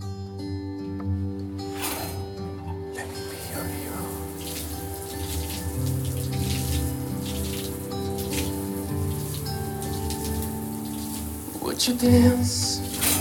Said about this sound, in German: Ich gehe da mal duschen, ja, ne?